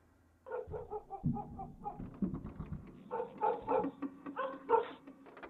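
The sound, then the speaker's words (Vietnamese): Dogs barking in a village at night: a long run of quick, repeated barks and short yips that come in clustered bursts, fairly loud and heard alone with no talk. “có tiếng chó sủa nhấm nha nhấm nhằng ở trong làng vọng ra, làm cho thằng Tấn mơ hồ giật mình thức giấc.”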